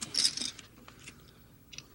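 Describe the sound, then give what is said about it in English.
A deck of playing cards is cut: a brief papery burst at the start, followed by a few faint clicks and light rustles. “Here, cut the cards.”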